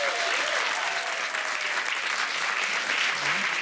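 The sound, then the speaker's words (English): Audience applause welcomes a cosmetic doctor onto the stage of a show. Many hands clap in a dense, even wash of sound that stays steady for the whole stretch. “Give it up for Dr. Naomi.”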